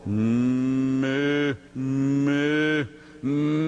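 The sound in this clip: A human voice imitating a bull calf bleating: three drawn-out, nasal 'meh' calls, each held steady before dropping in pitch at its end, with brief gaps between them and the last one cut short.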